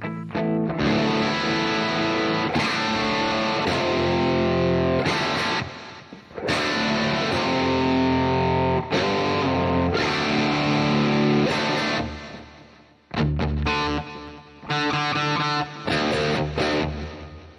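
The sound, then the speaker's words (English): Electric guitar played through distortion effects, ringing out loud, sustained chords and notes with a thick, harmonically rich buzz, pausing briefly a few times, with no voices. “This guitar has such a unique sound.”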